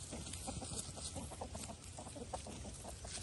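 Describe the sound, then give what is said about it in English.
Chickens cluck softly while scratching over a garden bed being cleared for replanting. The short, quiet clucks are scattered over a steady hiss of background noise. “So I'm letting the chickens have at it so they can do their thing.”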